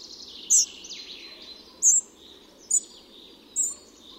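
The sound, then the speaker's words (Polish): Spotted flycatcher song: four brief, high, thin chirps spaced irregularly, each standing alone against a faint, steady background hiss. “Muchołówka szara jest naszą najczęściej spotykaną muchołówką.”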